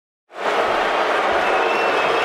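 A crowd at the 2013 NBA Draft at the Barclays Center in Brooklyn cheers and applauds, rising abruptly out of silence into a steady, loud roar that holds without letting up, with no talking.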